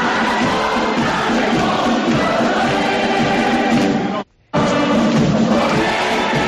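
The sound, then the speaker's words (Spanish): A large crowd sings the festival hymn in the streets of Jaca during the first-Friday-of-May celebration. The singing is a loud, dense, steady wall of massed voices, broken by a brief dropout near the end. “El himno del primer viernes de mayo, la fiesta de todos los jacetanos, de todos los jaqueses”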